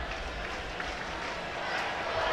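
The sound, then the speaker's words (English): Crowd of Brewers fans at a baseball game gives off a steady, dense roar of cheering that holds at an even level and swells slightly toward the end. “What were you saying about those Brewers fans? Turn the crowd mic down.”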